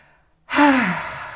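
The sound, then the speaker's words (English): A deep breath taken together during a guided moment of letting go of tension, exhaled as one long voiced sigh that falls in pitch. It follows a brief near-silence and then fades out gradually. “Let's do this together because I can feel the tension by just telling you. So let's have a breath together.”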